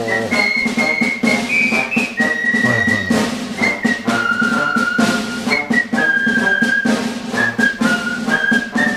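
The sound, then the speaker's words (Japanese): A group of people whistling a march in unison on a 1963 recording, the bright melody stepping through held and short notes over a steady, beat-driven band accompaniment, loud throughout. “これなかなかすごいバージョンだなと思って、これも一応なんか集団で口笛吹いてる”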